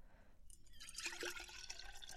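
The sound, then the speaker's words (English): Water is poured into a bottle for mixing a powdered drink, a faint gurgling trickle that starts after a brief quiet moment and continues steadily. “So first, you're supposed to put some water in a bottle.”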